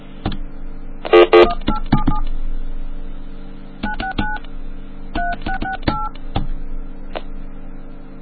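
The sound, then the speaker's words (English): Touch-tone telephone dialing: a number is keyed in as a quick run of paired keypad tones in short bursts and pauses, over a steady low hum. “I misdialed. Hold on, let me try to dial this number.”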